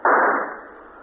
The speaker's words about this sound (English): Explain in your next existence. I shoot you like a dog.